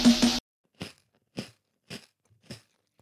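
Crunchy peach-flavoured candy is chewed, giving four sharp, dry crunches at an even, unhurried pace. The bites are faint, with near silence between them.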